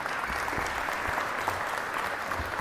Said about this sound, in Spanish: Un aplauso más fuerte a nuestros hermanos del coro.